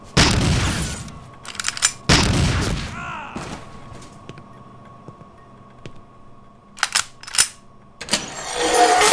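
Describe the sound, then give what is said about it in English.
Gunshots are fired down a straight hallway: a few loud, sharp bursts come in clusters, with a quieter stretch of low hum and scattered small knocks between them. “Hold still so I can shoot you properly. Ah, a nice straight hallway.”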